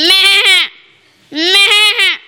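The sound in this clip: A goat bleating: two loud, wavering, nasal bleats with a quivering tremble, separated by a short pause.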